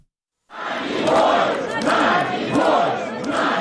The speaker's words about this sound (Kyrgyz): Киевдеги орус элчилигинин жанына чогулгандар Надеждага эркиндик деп кыйкырып турушту.